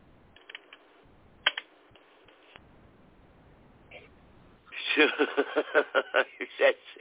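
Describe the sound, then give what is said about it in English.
Keyboard typing as a number is entered into a website, a few sparse clicks at first and then a fast, louder burst of keystrokes in the second half. “Okay, type it in there. I've got it. I'm getting it in there. Then hit enter.”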